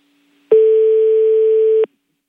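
A telephone line tone after a cut-off call: one steady, mid-pitched electronic beep holding for just over a second, then stopping cleanly.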